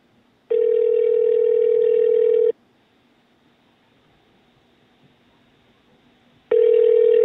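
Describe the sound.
Ringback tone from a telephone call waiting for someone to answer: a steady, mid-pitched buzzing tone lasts about two seconds, falls silent for about four, then starts again. No voices are heard.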